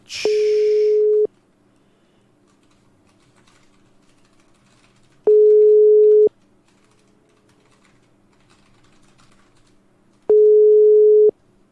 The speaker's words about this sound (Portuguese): Eu vou ligar para Daniel